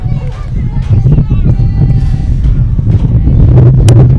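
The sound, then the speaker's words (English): Hard wind buffets the microphone at an outdoor softball game, a loud continuous low rumble under a commentator's talk. “1-0 as the wind continues to blow in hard.”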